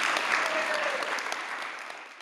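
A live audience applauding: dense, steady clapping from many hands that stays fairly even in loudness and tapers slightly at the end.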